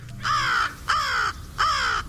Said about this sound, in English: Crows.